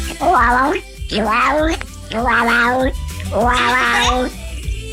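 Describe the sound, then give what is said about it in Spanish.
A cat in heat yowls four times: long, drawn-out, wavering meows, loud and evenly spaced with short breaks between them. “¿Ese es un gato en celo?”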